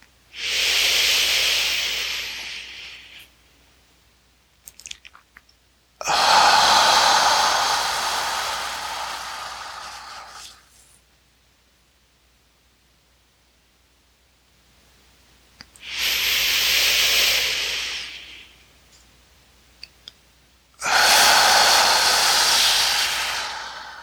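Slow, deep breathing during a guided belly-breathing exercise: four long, airy breath sounds, each lasting several seconds and separated by quiet pauses, steady and unhurried.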